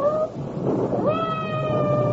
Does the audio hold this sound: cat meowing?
yes

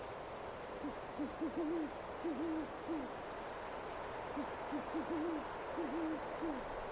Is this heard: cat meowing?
no

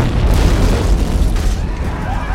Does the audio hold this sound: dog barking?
no

